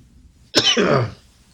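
A single human cough, opening with a sharp, forceful burst that trails into a rough, raspy rattle in the throat before fading. It is heard alone, with no talking.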